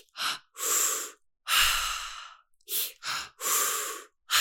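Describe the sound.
Breath work is heard as a series of loud, breathy inhales and exhales. Short sharp breaths alternate with longer drawn-out ones, with no talking.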